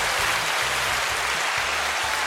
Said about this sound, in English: That's right. That's the applause button. We're here recording with the new Zoom PodTrack P8, and it's got a bunch of little buttons here.